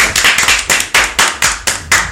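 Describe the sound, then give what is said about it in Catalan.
Children clapping together in thanks to their cave guides on a school outing, a quick rhythmic series of sharp claps at an even pace. “Un aplaudiment per ells també.”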